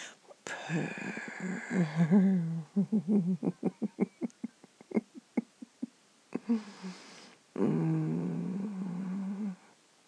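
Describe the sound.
A human voice imitates a cat's purr: drawn-out voiced murmurs framing a run of many rapid, pulsing rolled beats, fairly quiet.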